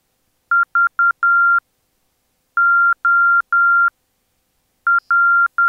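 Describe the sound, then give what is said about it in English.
Morse code identifier from a DME navigation beacon co-located with a VORTAC: a steady, high-pitched keyed tone pulses in crisp dots and dashes across three separate groups, clean and alone against silence. “The DME identifies itself once every 30 seconds.”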